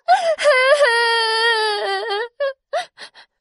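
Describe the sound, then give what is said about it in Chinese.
A voice imitates a little shell crying after falling into a rock crevice: a long, loud wavering wail, then a few short, choked sobs that taper off. “小贝壳害怕极了，伤心的哭了起来。 谁来救救我呀？”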